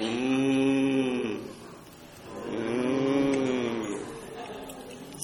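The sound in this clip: A church audience imitating big oxen with loud, low, drawn-out moos. Two long, sustained calls blend many voices into a deep, droning bellow, with a short dip between them.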